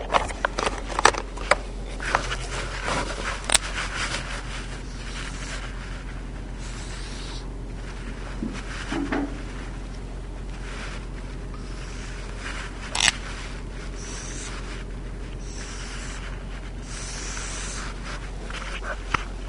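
Pen scratching steadily as a diagram of chromosomes crossing over in meiosis is drawn for a biology lesson. A faint, continuous scraping runs throughout, with a few sharper taps and strokes and no talking.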